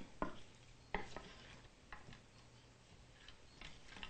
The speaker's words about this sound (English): Now we'll stir our vegan hot wings until they're well coated with the buttery hot sauce.